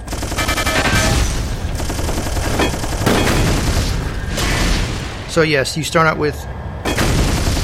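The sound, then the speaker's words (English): Nuke explosions and machine-gun fire in a video game: dense, loud, continuous bursts of rapid gunfire and heavy booms, with a short metallic ringing burst near the end. “I'll show you what the nukes do. Nukes. Machine gun. Cleans out the area.”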